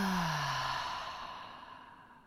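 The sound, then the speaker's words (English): A deep, slow exhale during a heart-centred breathing meditation: a soft, airy rush of breath that starts strongest and gradually fades over about two seconds, with no talk. “let's take a deep inhale into the heart and exhale it out, let it out.”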